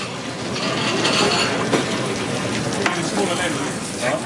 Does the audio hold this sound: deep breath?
no